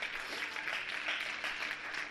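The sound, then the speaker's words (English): A church audience claps in praise during a sermon: dense, steady clapping that stays fairly even in loudness and runs for the whole stretch, with no clear break or pause. “Come on, clap and praise him.”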